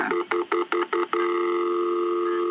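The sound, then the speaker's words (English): Keypad tones from dialling a non-emergency phone number: a quick run of several short, evenly spaced beeps, then one long, steady tone that holds to the end. “it's got a immediate non-emergency number. Right. So I'm going to see if I can dial it.”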